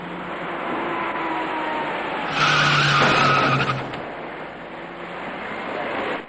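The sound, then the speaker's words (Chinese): Tire skid from a white small passenger car braking on a wet road as it hits a cyclist riding against traffic on an electric bicycle: a loud screech lasting just over a second, rising out of steady road noise and then fading. “躲闪不及的白色小客将他撞翻在路面上”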